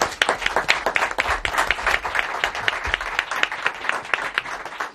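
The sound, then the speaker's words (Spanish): Audience applause: many hands clapping in a dense, lively burst that holds at a fairly steady level throughout, with no voices over it. “Así que este aplauso es para vosotros.”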